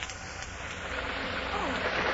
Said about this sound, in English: A heavy rain, riding the wings of an early November gale, lashes down on the sleeping city.